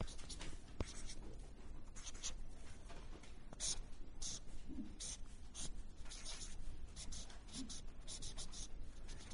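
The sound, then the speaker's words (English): Pen scratching on paper while drawing a compass and a line, a faint, continuous run of many short strokes and rubbing scrapes. “Let's try and draw a compass. We're going to draw a line now”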